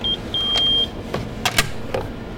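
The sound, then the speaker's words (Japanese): Battery being pulled out of a scooter battery-swap station: an electronic beep, then a longer one, followed by a few mechanical clicks and clunks as the battery is released and drawn out. “今度ここ光ってるところから出してもらってへえじゃあちょっとバッテリー抜くところもやってみます”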